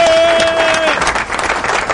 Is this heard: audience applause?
yes